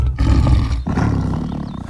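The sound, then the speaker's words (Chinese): A lion roaring: loud, deep, throaty roars in sustained bursts, with a brief break near the middle before the roaring resumes. “哎，真有狮子啊！”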